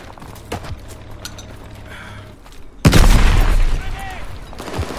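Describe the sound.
Old-school guns firing in a video game: scattered sharp shots early on, then a loud booming burst of gunfire that stays dense before tapering, with a few more cracks at the end.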